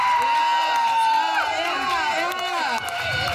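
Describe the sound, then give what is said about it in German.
Crowd cheering for the artist of an art exhibition, a loud, sustained roar of shouts and whoops with voices rising and falling throughout. “Also ein riesen Applaus für den Künstler dieser wunderschönen Kunstausstellung,”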